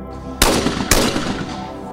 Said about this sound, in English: Clay discs are fired into the air at a speed of 140 kilometers per hour, and it's down to the athlete to shoot these discs out of the air with a rifle. There are 2 Olympic events, the single trap and the double trap shooting.